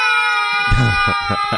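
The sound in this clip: Young boys cry and whimper as they are forced onto a toboggan sled for a run down a snowy hill. The sobbing comes in a few short, loud bursts over a steady tonal background.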